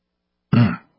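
A single throat clearing, a short, rough, throaty burst lasting well under half a second, fairly loud and alone with no talk around it.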